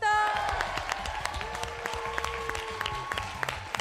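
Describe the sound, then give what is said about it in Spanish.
Applause from the audience at a school quiz contest, a steady patter of scattered claps, fairly faint, with a sustained tonal sound running behind it. “Sí, señor, hay que aplaudir.”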